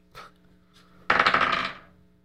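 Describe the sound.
A twelve-sided die is rolled during a tabletop role-playing game: two light taps, then a quick clattering rattle that fades out in under a second.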